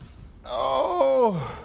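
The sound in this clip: A single drawn-out human groan, voiced and fairly loud, with its pitch sliding downward toward the end. It is the kind of moan made on pushing away from the table after a big meal.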